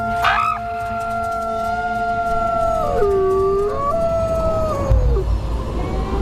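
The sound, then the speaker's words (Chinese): A wolf pack gives a summoning howl, several long tonal voices overlapping in chorus. Each holds a steady pitch before sliding downward, with a brief sharp rising cry at the start and no human voices. “这种特殊的叫声有召唤作用，一群狼应声而来。”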